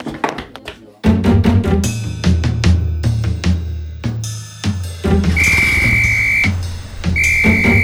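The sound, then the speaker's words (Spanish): A safety whistle is blown as an alarm that someone is in danger in a drama scene, sounding two long, steady, shrill blasts over loud music and a series of dull thuds and taps. “¿Silbatos como el que se está escuchando ahora”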